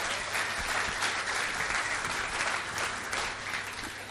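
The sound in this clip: A church audience gives a warm round of applause to welcome a guest speaker. The dense, continuous clapping holds steady and then tapers slightly at the end.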